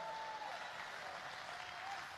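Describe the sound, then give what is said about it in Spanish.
Steady, dense clapping from a church audience during a sermon, an even wash of applause that holds at one level for the whole stretch with no voices standing out. “¿Alguien le da palmas a él en esta hora?”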